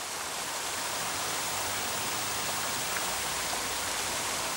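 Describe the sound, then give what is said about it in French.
Steady, dense splashing and rushing of a monumental fountain in a royal square in Nantes, near the cathedral, with statues of the Loire and its tributaries and water flowing since 1865. The even wash of falling water stays constant throughout, with no voices. “Des jeux d'eau monumentaux à la gloire de cette ville située à l'embouchure de la Loire.”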